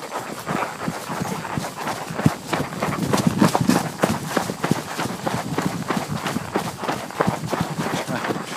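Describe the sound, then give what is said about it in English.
Horses trotting, their hoofbeats forming a rapid, steady rhythm of dull clops that runs throughout over a constant rough background noise. “And then we started trotting. Yay, trotting! This is what we signed up for!”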